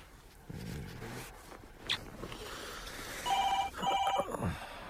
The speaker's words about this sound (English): Can't you just let it ring? Yeah, I know, but it might be important at this time of night. Yeah, or a drunken wrong number.